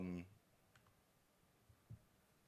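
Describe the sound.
A computer button is clicked with a mouse, making a few faint, short clicks scattered over a couple of seconds after a brief voice at the start.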